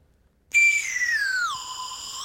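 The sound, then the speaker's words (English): A swanee whistle blown in one long, sustained tone after a brief silence. Its bright pitch slides steadily downward, then levels off low with a slight lift at the end. “Do you want to give yours a quick blast just to check it works and to go? Oh, so it's like a thingy whistle. What the swanny whistle?”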